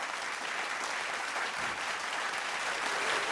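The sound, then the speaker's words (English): Sustained applause, a dense, even crackle of many hands clapping that holds at a steady level for the full length, heard on its own without voices. “one more again, for keeping the people dummy down, I want to applaud”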